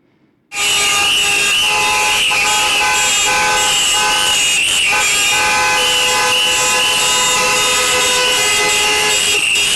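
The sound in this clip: Car horns blare in a street protest, played as a duo with a txistu pipe: a loud, steady, layered tone that starts abruptly and holds unbroken for about nine seconds.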